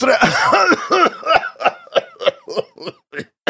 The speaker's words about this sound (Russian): Договорить помешал скрутивший меня приступ сухого кашля.